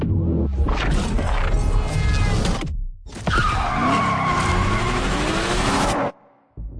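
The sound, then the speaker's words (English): Car tires skid in a film trailer: two long, loud screeching passes with engine roar beneath. The passes are split by a short gap, and the second one cuts off abruptly into a moment of near silence. “Here's a trailer for Kraven the Hunter.”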